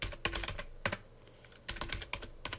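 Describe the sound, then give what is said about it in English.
Typing a username, an email address, on a computer keyboard: quick faint clusters of key clicks, a brief pause midway, then another rapid run of keystrokes. “so I'll type in my username, which is my email address.”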